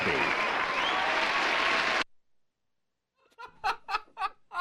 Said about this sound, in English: You just said crowd cheering, then your logo.